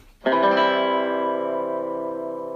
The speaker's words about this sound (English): What you just heard is a very basic chord called C major.